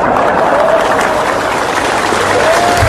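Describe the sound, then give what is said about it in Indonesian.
Loud sustained applause from a gathered crowd, hands clapping hard in a dense, even wash that holds steady from start to finish. “Lu tepuk tangan sing banter.”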